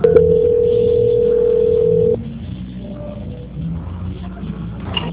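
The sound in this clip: Telephone line tone during a call transfer: a steady, even tone holds for about two seconds, then cuts off abruptly and leaves quieter low line hum and faint background noise.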